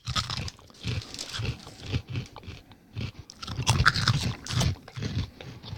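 Someone chews surimi, making many soft, wet mouth sounds in an uneven rhythm with a few crunchier bites, fairly faint and alone.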